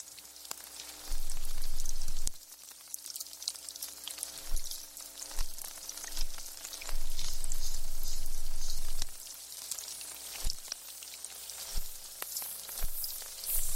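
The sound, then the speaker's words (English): Barnacles crackle underwater in a dense, steady sizzle of tiny clicks and pops, with a few louder low rumbling swells rising and falling beneath the fizzing. “You're still hearing the barnacle sounds, and already they're changing.”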